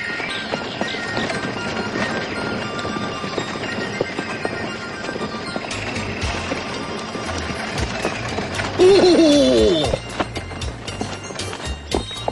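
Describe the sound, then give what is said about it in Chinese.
Hooves clip-clop steadily as a horse-drawn carriage travels to Lingyan Mountain Temple, with a rolling rumble beneath. A short, descending whinny-like call rises out near the end. “马车直接前往灵岩山寺。”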